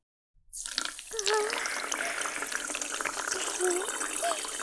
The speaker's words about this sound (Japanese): その、洗面器でお湯かけてあげよっか。お湯、今出すからね。